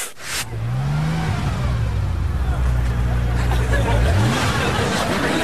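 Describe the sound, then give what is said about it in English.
A borrowed two-seater loaner car pulls up with its engine humming and revving steadily, alongside voices. “Hop in. Hey, check out Sabrina's ride. Where did you get that? Oh, my aunt's wagon broke down. This is a loaner.”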